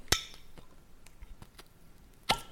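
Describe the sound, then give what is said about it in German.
Seal and cap of a new whisky bottle being opened for the first time: a sharp crack at the start, a few faint small clicks and scrapes, then a second sharp pop near the end. “Oh, ich liebe das Geräusch, wenn eine Flasche zum ersten Mal geöffnet wird.”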